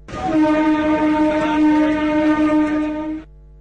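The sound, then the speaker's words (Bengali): A train horn sounds as a crowded passenger train is about to depart on a busy Sunday. It is one long, loud, steady blast of about three seconds with a rich harmonic tone, then it cuts off abruptly. “ওই তো আমাদের ট্রেনের horn দিচ্ছে”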